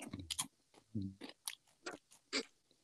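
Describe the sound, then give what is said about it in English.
Crunching and chewing of colored candies, a run of crisp, uneven bites and munches in short bursts with pauses between them, fairly loud and with no talking. “And I'm getting ready to taste them here on air. So seems the blue might have been better as a witch's hat shape. You know what? I want to taste each individual color to see if it tastes different.”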